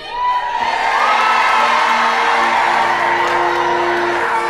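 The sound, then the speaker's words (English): A crowd cheers and whoops for the Cougars quarterback at a team rally, a loud, sustained roar of shouts and cheers that swells early and holds throughout. “Let's give it up for Caleb! Hip, hip! Hooray! Come on, Cougars! Let's hear it for Caleb Richter.”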